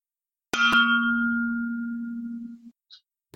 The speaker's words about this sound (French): le moment est venu maintenant de faire sonner votre magnifique gourde en inox